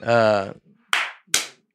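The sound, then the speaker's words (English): Two sharp hand claps ring out about half a second apart, each with a brief decaying tail, following a short voiced sound. “Just clapping.”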